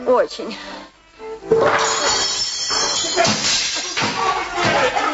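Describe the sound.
Dishes crash and break in a household kitchen scramble to catch a fish, a dense clattering of shattering crockery lasting several seconds after a brief voice at the start.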